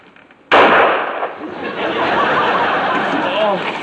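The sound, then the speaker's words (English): A single sharp gunshot from a gun going off accidentally, a sudden loud crack after a quiet moment, followed by continuous noisy commotion and voices. “Oh. My gun went off. I don't know how.”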